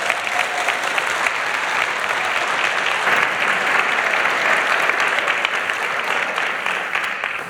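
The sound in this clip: An audience at a Sunday church service applauds as a young woman comes up to share her story. The clapping is steady and dense, swells slightly through the middle and eases off at the end.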